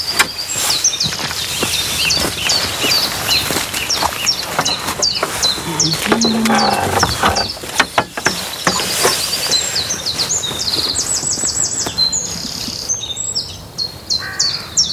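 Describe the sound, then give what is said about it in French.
Great tit singing amid a busy chorus of other birds, with many bright, repeated chirps and whistled phrases overlapping throughout at steady loudness. “On a mieux la mésange, ça, c'est la charbonnière. En fait, on dit qu'ils chantent pour marquer leur territoire, pour séduire une femelle.”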